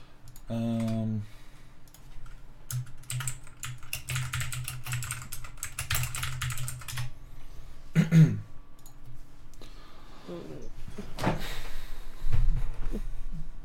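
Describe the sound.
Rapid clicking of typing on a computer keyboard while a message is written during a tabletop role-playing game, with many dense keystrokes in bursts over a steady low hum. No one speaks over the clacking.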